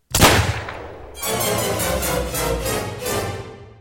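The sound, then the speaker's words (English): Gunfire in a convent: one sharp, loud bang, a brief lull, then a sustained burst of rapid, repeated shots in a dense rolling clatter lasting over two seconds. “I thought I heard guns. Are these nuns armed?”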